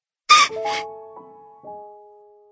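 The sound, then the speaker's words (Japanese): A person crying in a few wavering, wailing sobs, the first cries loud and the later ones trailing off into softer, sustained moaning tones. “ちょ、ちょっと、どうして泣くのよごめんなさい。”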